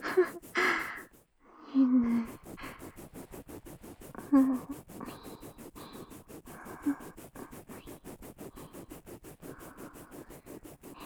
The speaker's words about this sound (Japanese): 歯ブラシも使い捨てのやつだからね、あんまり良くないかなーって。